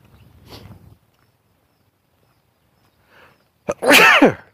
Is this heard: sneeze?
yes